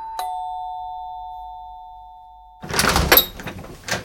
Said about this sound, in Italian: apre la porta